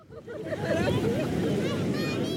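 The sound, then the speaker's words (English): Surf and wind sound at Kite Beach in Dubai on the Persian Gulf, a steady wash of waves that swells after the first half second, with faint voices mixed in. “It is winter in Dubai, and Kite Beach is packed. Families are lounging on blankets near the water. A little roped-off section of the Persian Gulf is teeming with swimmers, and the boardwalk is buzzing.”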